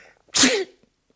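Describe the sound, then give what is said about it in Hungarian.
A person gives a single loud, explosive sneeze: a sharp intake leads into a hissing burst, followed by faint breathing noises. “Amint tetszett látni, tüsszentett.”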